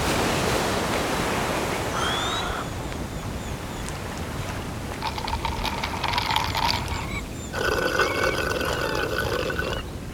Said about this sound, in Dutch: Hey, kom je even naast me zitten, hier, op dit prachtige witte strand?